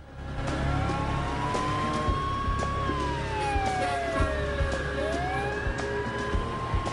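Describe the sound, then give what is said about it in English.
Engine roar from a silver Porsche speeding along a road through a pine forest, a loud, steady drone whose tonal layers drift up and down in pitch throughout. “A silver Porsche rockets along the road through the pine forest.”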